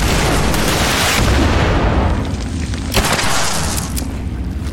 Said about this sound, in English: This is the guy with the rocket launcher. Somehow all of those rockets hit the box in front of me. Did not actually hit me.